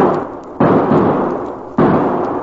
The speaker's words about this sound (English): those shots.